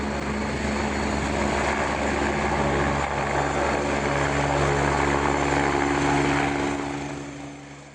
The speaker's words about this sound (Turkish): Hastane bahçesine iniş yapan ambulans helikoptere sağlık ekipleri tarafından nakledilen bebek, Konya Şehir Hastanesi'ne sevk edildi.